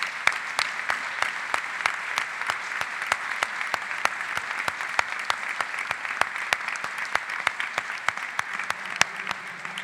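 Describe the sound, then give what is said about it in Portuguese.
A church audience applauds the Lord after a prayer. Many hands clap in a steady, evenly spaced rhythm over a continuous wash of applause for about ten seconds. “Você pode aplaudir o Senhor?”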